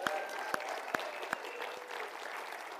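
Faint audience applause, a steady patter of clapping with a few sharper, louder claps, lasting the full three seconds.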